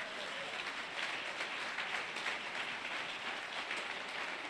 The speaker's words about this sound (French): Est-ce que quelqu'un peut acclamer Jésus?